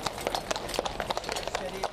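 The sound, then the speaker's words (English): Hooves of dozens of horses clip-clopping as they lead a royal wedding rehearsal parade, many sharp, crisp strikes in a busy, uneven rhythm, with faint talk underneath. “Dozens of horses led the parade”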